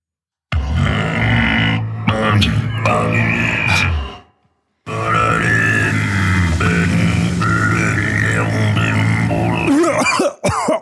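Harsh coughing and throat clearing from someone with something stuck in the throat: loud, strained hacking and grunting that runs on for several seconds, breaks off briefly, then resumes just as forcefully.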